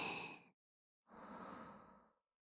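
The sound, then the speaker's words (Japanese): Slow breathing out, heard as two soft airy breaths: a short one trailing off, a pause, then a longer, steady exhale of about a second. Both are quiet, with no voice. “ゆっくり吸って。ゆっくり吐いて、”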